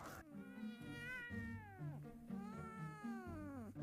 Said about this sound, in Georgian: აი ეს კატა არ არის, ის მონსტრია.